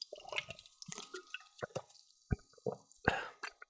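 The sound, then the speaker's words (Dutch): Quiet, wet slurping and gulping from a soda can: a few irregular soft plops and swallows, faint throughout. “Ik ga het eh, blikje opdrinken.”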